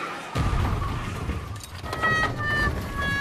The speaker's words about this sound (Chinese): 好，已经变成绿灯了，两辆车几乎同时驶过了停止线